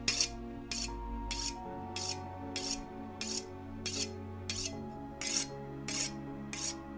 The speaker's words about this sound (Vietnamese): Gã mài con dao xoèn xoẹt lên viên đá mài để ngay trên cái sạp thịt.